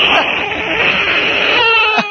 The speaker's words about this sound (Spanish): Niño, cómo llora.